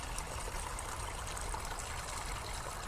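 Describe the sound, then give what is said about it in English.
A small stream trickling and bubbling, a faint, continuous watery burble with no voices. “I like to think of small streams like this one as”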